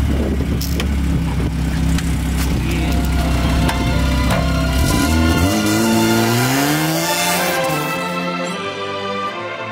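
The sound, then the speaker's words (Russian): A car engine roars without pause while the car drifts. Its pitch dips, then climbs steeply before the sound tails off near the end. “братва, сейчас будем дрифтовать. Поехали.”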